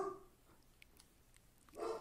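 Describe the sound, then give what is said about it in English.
A pet dog barks faintly in the background, with a few short, muffled barks separated by quiet gaps. “My dog in the background. I don't know what he's barking at.”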